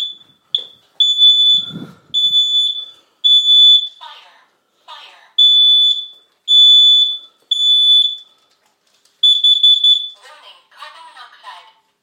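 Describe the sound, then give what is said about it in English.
A combined fire and carbon monoxide alarm sounds during a test: repeated bursts of shrill, piercing beeps alternate with short synthetic voice announcements, loud and clear throughout. “So here is the test, and what it does the sound and the voice for fire and also for carbon monoxide. So I'm just going to move away a little bit as I press it.”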